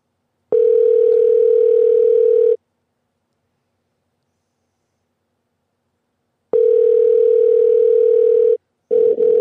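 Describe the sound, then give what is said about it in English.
Ringback tone of an outgoing phone call that goes unanswered: a loud, steady electronic tone plays for about two seconds, then stops for about four. It plays again, then breaks into short choppy bursts at the end. “We're calling this dude back.”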